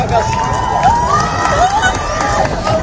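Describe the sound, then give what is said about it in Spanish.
A crowd in La Coruña cheers and shouts in awe at a sky phenomenon, a loud, continuous wash of voices with high excited shouts rising and falling throughout. “Aplausos, incluso lágrimas, el asombro de la gente ante una belleza inquietante, ante un fenómeno realmente hipnótico.”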